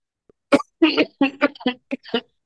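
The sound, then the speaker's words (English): A man coughing and choking while suffering a terrible sore throat during a voice call, a run of several harsh, throaty bursts in quick irregular succession, loud and separated by short gaps of silence. “Or are you choking? Oh, he's choking.”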